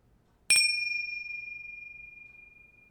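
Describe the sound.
A single bell struck once during a guided mantra session, giving a bright, high, clear ding that starts sharply and rings on as a long sustained tone, pulsing gently while it slowly fades.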